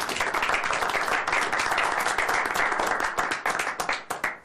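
An audience claps hands in honor of a man, a dense, steady wash of applause that holds for about four seconds and then thins into a few scattered, separate claps at the very end, with no voices standing out.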